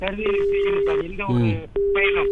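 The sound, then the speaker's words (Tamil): A telephone ringing with an incoming call: a steady electronic tone that breaks off and resumes, heard together with talking voices. “நாகரிகம் கருதி போன்ல கால் வருதுன்னு நினைக்கிறேன்.”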